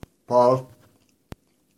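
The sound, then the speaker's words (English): Someone eats the last bite of a burrito: a short, soft burst of chewing blended with a voiced murmur, framed by two sharp isolated clicks, one at the start and one near the end, with quiet in between. “Just like this last bite of this burrito. Yummy.”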